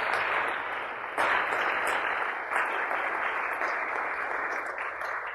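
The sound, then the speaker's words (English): Applause from an audience welcoming two orphanage workers introduced during a church service: a dense, steady wash of clapping that runs throughout, with small surges a little after one second and again near two and a half seconds. “Would you please stand as we give you a hand? Welcome, welcome, welcome.”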